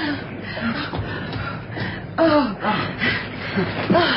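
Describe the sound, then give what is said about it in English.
Heavy panting of a person catching their breath after running to catch a departing boat: rapid, ragged, breathy gasps that continue throughout at a moderate level. “I was just trying to get my breath back.”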